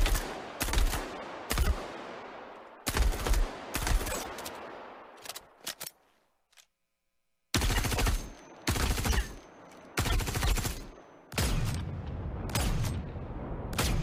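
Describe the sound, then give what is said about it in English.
Video game weapon gunfire sound effects: several loud bursts of rapid automatic fire, each with a short ringing tail, separated by brief pauses and one longer silent gap midway. “First, let's listen to some of our weapon sounds in action.”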